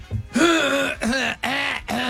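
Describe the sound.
Throat clearing: a rough, buzzing rasp pushed out in a few short bursts with brief gaps between them, loud and heard alone.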